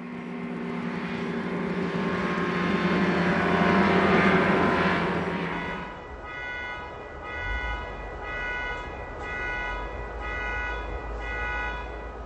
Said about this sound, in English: As you can hear in this section, even being far out in the middle of the backcountry canyons of Colorado, humanity's footprints are present. Listen to this airplane flying high overhead among a choir of coyotes.